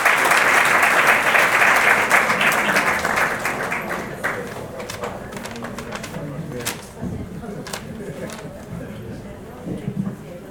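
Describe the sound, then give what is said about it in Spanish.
Audience applause welcoming a speaker at a health movement assembly: loud, dense clapping at first that gradually thins into scattered claps, with voices talking underneath. “Sí, dale. Fuerte el aplauso para Pinina, bienvenida.”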